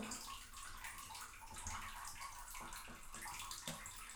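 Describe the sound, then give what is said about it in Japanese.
Water splashes and sloshes in a bathtub while a body is washed. The sound is continuous and fairly soft, with light gurgles and no talk. “じゃあ体洗うよ。はい、温泉シート。”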